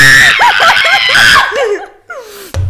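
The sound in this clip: A group of people scream together, loud and high-pitched, their wavering voices blending into a thick mass that breaks into laughter before trailing off. One short squeal follows, then a sharp knock.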